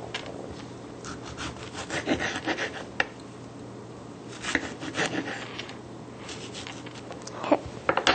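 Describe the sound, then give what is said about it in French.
A knife cuts tomatoes into eight pieces with many irregular scraping and slicing strokes, broken by a few sharper clicks as the blade meets the surface, at a moderate, steady loudness. “On découpe les tomates en 8 morceaux.”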